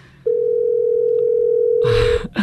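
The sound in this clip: An unanswered telephone call tone: a single steady, mid-pitched electronic tone held for about two seconds, then cut off by a short burst of clattering noise.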